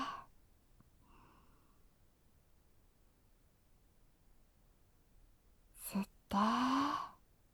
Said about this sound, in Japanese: それじゃあ行くよ。吸って。吐いて。